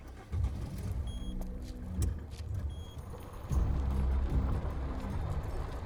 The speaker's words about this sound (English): That's her dad's car.